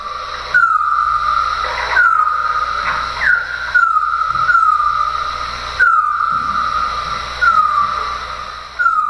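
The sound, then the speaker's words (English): Bat calls recorded near a park along a street with ultrasonic wildlife acoustic equipment and made audible: many short, downward-sweeping chirps repeating in regular bursts over a steady background hiss. “This is the sound of a bat recorded near Terry Fox Park along Rue St. Jacques. This sound was gathered using wildlife acoustic technology.”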